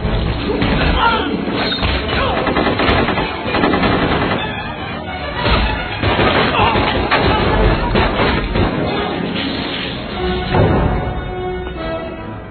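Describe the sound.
Gunfire rings out in repeated loud bursts of sharp cracks and heavy impacts, mixed with crash-like thuds over a dense, busy background.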